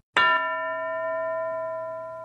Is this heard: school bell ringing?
yes